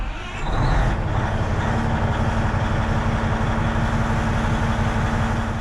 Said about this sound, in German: die Maschine in die Grube des Steinbruchs fahren. Gelenkt wird das 100-Tonnen-Gefährt nur mit den Fingern.